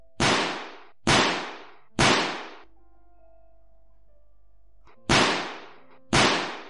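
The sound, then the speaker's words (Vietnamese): Gunshots from handguns fired in a shootout: three sharp, loud cracks evenly spaced about a second apart, a pause filled with a low hum, then two more cracks, each with a short ringing decay. “Tiếng súng vang lên khiến mọi người đang có mặt tại đây bỏ chạy tán loạn.”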